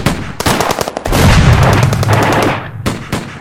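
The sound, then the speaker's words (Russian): Gunfire from about a hundred guns, sawn-off shotguns among them, fired into the air over ruins: a loud, dense volley of rapid overlapping shots forming a continuous crackling roar, with a few sharper separate bangs at the start and end. “Грохот выстрелов заметался над развалинами. Часто замигали вспышки.”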